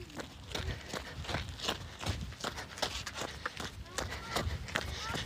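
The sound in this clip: Jogging footsteps in a steady, quick rhythm from someone running, a continuous series of soft thuds beneath ongoing speech.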